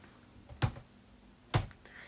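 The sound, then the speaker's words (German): Two sharp key presses on a computer keyboard switched to a Russian layout, spaced about a second apart over faint background hiss. “Dazu stelle ich jetzt erstmal das Tastaturlayout auf Russisch. Das mache ich, indem ich Windows-Taste und Leertaste drücke. Deutsch, Deutsch, Englisch, Englisch, Russisch, Russisch. Perfekt. Ich gebe jetzt mal ein.”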